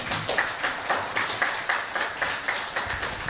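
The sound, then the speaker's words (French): Faint, rhythmic audience clapping in unison for guests at a Catholic radio event, with many regular, evenly spaced claps continuing steadily from start to finish. “Très bien qu'on puisse les acclamer, s'il vous plaît.”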